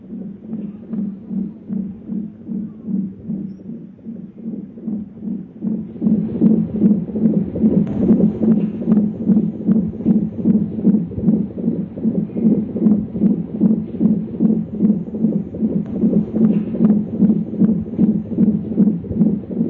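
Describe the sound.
The heartbeat of an unborn baby throbs in fast, steady whooshing pulses, many beats in an even rhythm that grow louder after the first few seconds and continue without pause.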